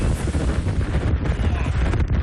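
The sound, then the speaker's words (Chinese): Strong wind roars at a shelterbelt forest of mixed Mongolian pine and poplar and buffets the microphone. It makes a dense, continuous rushing rumble that never lets up. “采访过程中，一场大风天气让记者直观感受到了有林和无林的区别。”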